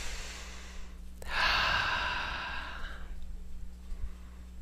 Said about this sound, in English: Nice deep breath.